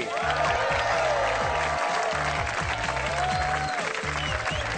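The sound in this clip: Dense, sustained audience applause welcoming a singer-songwriter from San Diego, with continuous clapping throughout and some cheering voices rising over it.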